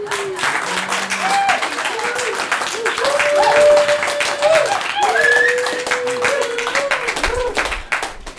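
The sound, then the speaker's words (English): Audience applause at a commemoration event: dense, continuous clapping from a crowd that holds steady for several seconds, with cheering voices and whoops rising over it before it fades slightly at the end. “So where's my applause?”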